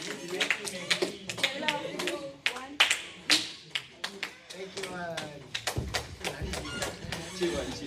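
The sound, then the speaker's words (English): Audience clapping comes in scattered sharp bursts of uneven loudness, mixed with people talking throughout. “Big round of applause to Jenna once again.”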